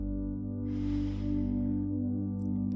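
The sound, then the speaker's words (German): A slow, deep breath during a guided autumn meditation: a soft airy hiss of about a second and a half over calm, sustained low tones. “Schließe deine Augen und nimm dir einen Moment, um dich auf deinen Atem zu konzentrieren. Atme tief ein”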